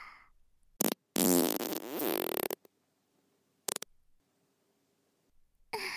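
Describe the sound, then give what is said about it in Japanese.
Farts from a young woman under her skirt: a few quiet bursts, one long and sputtering with a buzzing, rasping tone, the others short, separated by silence. “これだよ。お姉ちゃんのおなら。ほら、スカートの中がおならまみれ。”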